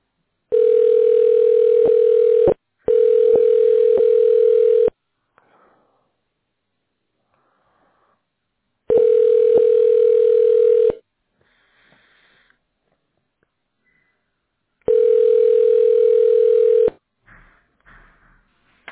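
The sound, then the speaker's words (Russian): A steady telephone tone sounds while a caller waits on hold for an operator: four long beeps of about two seconds each, all at the same pitch, separated by stretches of near silence. “Благодарим за обращение в компанию развития. Первый освободившийся оператор ответит на ваш звонок.”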